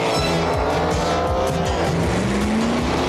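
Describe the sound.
Race cars at the Indy 500 roar past, with loud high-revving engines in several quick pass-bys and an engine note that climbs steadily toward the end.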